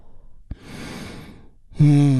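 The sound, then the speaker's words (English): A deep breath drawn in during a guided relaxation: a soft, airy rush lasting about a second after a short click, then a voice starts speaking. “And we do that by taking a big, deep, healing breath. Right now, here we go. And release.”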